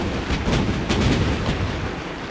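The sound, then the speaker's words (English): Warship's great guns firing at targets during a squadron gunnery exercise at sea: a few sharp bursts over a dense, continuous booming rumble, loud throughout with no voices. “At 3 p.m., squadron exercised the great guns by ship, shooting at targets.”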